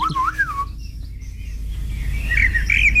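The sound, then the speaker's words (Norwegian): A Eurasian blackbird sings, opening with a loud, fluting, warbled phrase that is followed by a quieter pause and then bright, high twittering notes near the end. “Turdus merula, Turdus eller svarttrost. Merula. Ja. Den ses jo vanligvis i hager, parker og skogsområder, høres ut som dette.”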